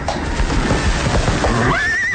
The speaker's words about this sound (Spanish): El soberbio potro logró al fin afianzar sus cuartos traseros en terreno firme.